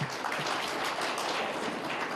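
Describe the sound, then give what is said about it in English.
Faint applause in a parliament chamber: steady, even clapping that stays at one low level throughout, with no voices standing out. “I think we must applaud Mr. Kake.”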